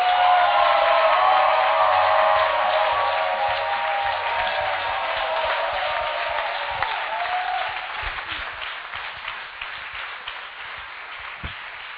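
Church audience acclaiming with hearty applause, loudest at the outset and gradually thinning into scattered claps over about twelve seconds.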